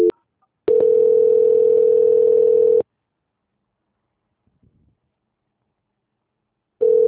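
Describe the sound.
A telephone line tone plays during a call transfer: a brief beep, then a steady mid-pitched tone held for about two seconds, followed by a long silence before the tone starts again at the end.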